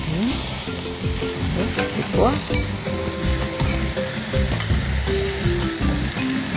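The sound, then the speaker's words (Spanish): Petit pois tipped into vegetables frying in a pan set off a loud, steady sizzle, with stirring scrapes and a few light clinks of utensil on pan. “Una vez que estén nuestras verduras, le agregamos los pitepoas, si gusta.”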